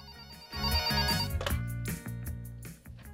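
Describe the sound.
A telephone rings for an incoming call with a loud electronic ringtone. It plays a steady melodic pattern of sustained tonal notes with no voices over it.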